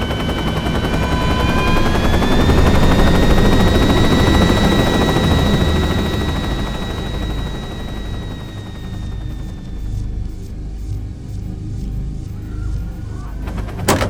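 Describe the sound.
A helicopter flies in over a town to set down, its loud rotor rumble carrying a steady high turbine whine. The whine fades out partway through, leaving a quieter, uneven rumble.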